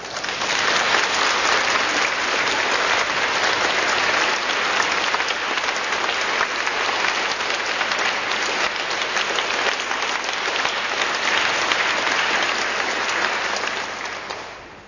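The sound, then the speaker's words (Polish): Audience applause: dense, steady clapping that holds at an even level for a long stretch, then tapers off at the very end. “I dziękuję, że mi pomogliście podziękować tym aplauzem.”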